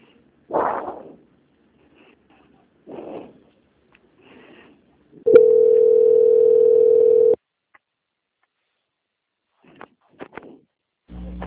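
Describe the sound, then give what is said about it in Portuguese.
A steady telephone tone sounds while a call is being transferred. It is a single flat, clear note lasting about two seconds, set among silence and a few short, faint sounds before and after. “que eu vou transferir a ligação para o controle de qualidade, que dará continuidade à sua contratação, tá?”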